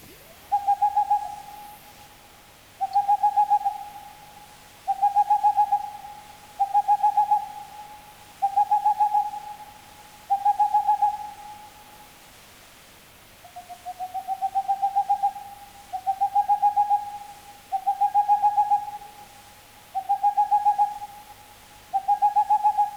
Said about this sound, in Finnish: Helmi Pöllö.